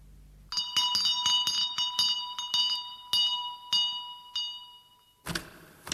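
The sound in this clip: A bell is rung to summon a butler, giving many bright metallic strikes that ring with clear sustained tones. The strikes come quickly at first, then space out before a brief noisy burst at the end.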